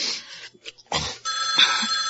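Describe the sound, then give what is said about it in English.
A telephone rings in a few bright, electronic bursts separated by short gaps. The last ring is longer and carries on alone with no voices. “Get the phone.”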